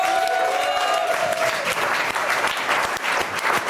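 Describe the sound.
A lively studio audience applauds with many hands in a dense, continuous burst of clapping, loud and steady throughout.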